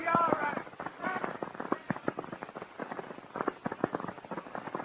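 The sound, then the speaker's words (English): Gunshots from a man shooting up the street outside a store, many rapid, sharp cracks in an irregular burst, with a brief voice at the start. “There's a crazy guy in the street outside my store shooting up the place.”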